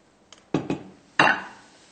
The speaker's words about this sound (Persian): حالا من میخواهم برای شما عزیزان قابلی پلو داخل یک بشقاب بکشم.